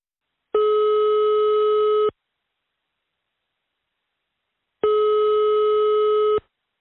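Telephone call tone while phoning someone: two long, steady buzzing tones, each about one and a half seconds, separated by a few seconds of silence, with no talking.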